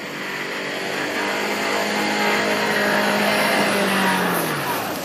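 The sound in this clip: An off-road vehicle stuck in mud on a rain-soaked off-road course, its engine held at high revs in a continuous loud, rough roar that stays steady for the whole stretch.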